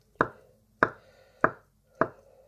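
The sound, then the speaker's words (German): A knife cuts mozzarella into small pieces for a burekas filling, producing four evenly spaced, crisp chopping thuds, each followed by a brief soft decay. “ich schneide jetzt hier gerade den Mozzarella ein bisschen klein, damit man den dann alles schön vermengen kann.”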